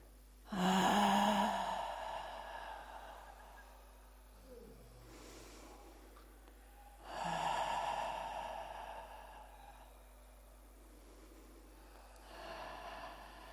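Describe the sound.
Slow, deep breaths taken during a neck stretch in an exercise routine: three breathy exhalations spaced several seconds apart, the first two strongest, over a steady low hum.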